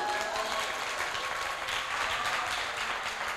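Steady applause from an audience during a church sermon praising God, a dense continuous patter of clapping that holds at an even level for the whole stretch with no break.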